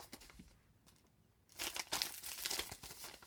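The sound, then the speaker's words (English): Paper crinkles and tears as a golden envelope is opened, a faint rustle at first, then a louder, sustained crackling and ripping. “I'll open up this beautiful golden envelope”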